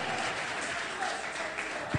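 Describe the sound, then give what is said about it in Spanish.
An audience applauds in praise with dense, steady clapping at an even level, and a single thump comes near the end. “Dele ese aplauso de alabanza al Dios de gloria en esta hora.”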